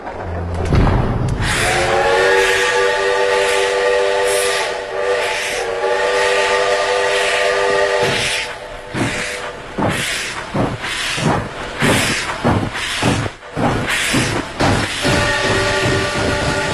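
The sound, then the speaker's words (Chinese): A train loaded with cultural relics departs Qianmen railway station in Beijing. A long, loud, sustained harmonic whistle sounds first, then gives way to a run of rhythmic, heavy chuffing pulses. “满载文物的火车驶出了前门火车站”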